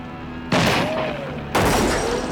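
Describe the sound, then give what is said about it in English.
Gunfire exchange in a shootout at a house, with shots returned from the front window: two loud, sharp bursts of shooting about a second apart, each trailing off into a rumbling decay. “Braxton and the others open fire out front, and Josh returns fire from the front window.”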